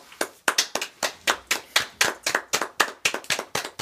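Hands clap in a steady, even rhythm, many sharp claps in quick succession with no voices.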